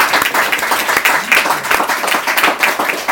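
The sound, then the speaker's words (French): Audience applause for a musician after a breakfast concert, a dense, lively clatter of many hands clapping with irregular peaks, loud and steady throughout with no talk over it. “on peut t'applaudir encore une petite fois. Quand même.”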